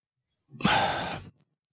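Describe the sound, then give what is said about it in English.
A single deep breath taken during a group breathing exercise, a soft breathy rush lasting under a second that swells quickly and then cuts off, heard alone without talk. “Let's take a deep breath in, guys.”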